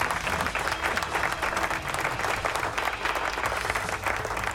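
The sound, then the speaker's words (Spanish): Steady crowd applause, dense and loud clapping that runs unbroken from start to finish with no voices over it. “Aplausos, gente.”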